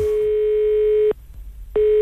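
A telephone line rings during a phone call: a steady single-pitched tone holds, breaks off for a short gap, then sounds again.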